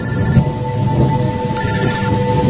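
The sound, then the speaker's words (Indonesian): A telephone rings in a small eatery on a rainy day, two bursts of bright, high trilling separated by a short pause, over steady background noise. “tiba-tiba saja aku dikagetkan oleh suara bunyi telepon.”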